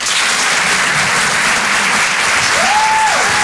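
Applause from a comedy club audience greeting a comedian onstage: dense, steady clapping holds at an even level throughout, with a sustained whistle sounding over it near the end.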